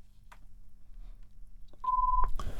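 A telephone tone sounds as a call is placed: one steady, mid-pitched electronic beep of under half a second comes near the end, faint against low background noise.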